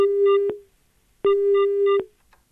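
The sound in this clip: A telephone busy signal cuts off a failed caller on a live phone-in show of Kannada film songs: two steady mid-pitched tone bursts separated by a short silence, loud and alone.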